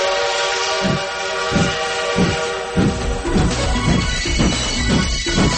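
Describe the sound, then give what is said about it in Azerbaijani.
Train horn sounding as a train departs in a sound effect: a sustained horn tone over rhythmic chugging pulses that quicken steadily as the train gathers speed. “Seçki qatarı 101.7 FM stansiyasından yola düşür.”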